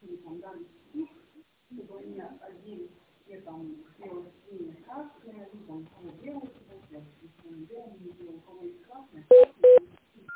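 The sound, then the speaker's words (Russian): Telephone keypad tones as an extension number is dialed: two short, loud beeps come right at the end, after a recorded voice speaks on the line. “Пожалуйста, наберите внутренний номер абонента или дождитесь ответа оператора.”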